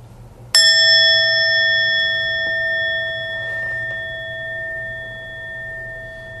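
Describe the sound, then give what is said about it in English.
A bell is struck once and rings out with a bright, sustained metallic tone that slowly fades over several seconds, alone over faint background hiss. “For example, if I ring the bell,”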